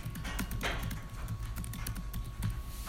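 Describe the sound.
Keystrokes on a computer keyboard as a terminal command is typed to reboot a system: many quick, irregular clicking taps, fairly faint, with no talk.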